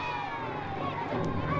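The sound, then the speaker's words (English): Running feet and commotion as a crowd of small Garusians charges from every direction and attacks a starship crew, a dense, steady wash of sound that swells slightly toward the end. “Suddenly, from every direction, dozens of little Garusians come running. Without a word, they brutally attack the Enterprise crew.”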